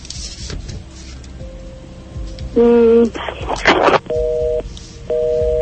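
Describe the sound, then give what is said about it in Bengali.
Busy tone after a dropped phone call: three loud, steady electronic beeps, with talk and noise before them and a harsh crackling burst between the first beep and the last two. “আমার মনে হয় আমাদের ফোনটি কেটে গিয়েছে এই মুহূর্তে।”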